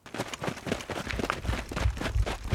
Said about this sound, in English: The ground rumbled above them as one of the soldiers ran past.